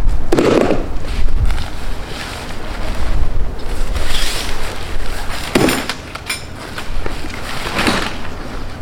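Wind blows outdoors while a hunting blind is being set up, a steady rushing buffet of noise across the microphone that swells and eases throughout without pause.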